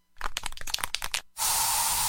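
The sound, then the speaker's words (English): Aerosol bug spray being used in a home: a quick run of sharp clicks and rattles, then a loud, steady, broad hiss that continues to the end. “So you just used bug spray in your home.”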